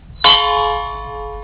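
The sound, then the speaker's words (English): A gong struck once to open a reading at a festival, giving a sharp metallic hit followed by a bright, sustained ring with steady overtones that slowly fades. “we shall begin with the clang of the gong.”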